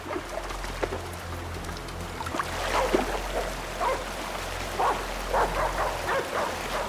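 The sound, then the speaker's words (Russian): A dog barks a few times beside a fast river where warriors wade in and people ride a raft. Short, mid-pitched barks rise above a steady low hum and the wash of water. “На плоту Магра и Матол поворачиваются на лай.”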